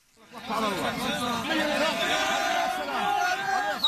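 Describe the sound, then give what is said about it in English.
A crowd in Gaza cheers as families welcome relatives released from Israeli prisons, with many overlapping raised voices shouting and calling. The loud, continuous swell starts after a short fade-in. “This is the sound of cheering in Gaza. Families welcoming relatives released from Israeli prisons earlier this year.”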